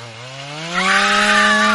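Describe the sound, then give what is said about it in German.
A chainsaw runs loud and steady on its own, the engine note climbing a little in pitch during the first second, then holding a high, buzzing drone to the end. “Kettensäge gepaart mit Schrei. Ich muss sagen, bis zum Schrei habe ich mir gedacht, okay, da schneidet halt wer Bäume um, aber nein.”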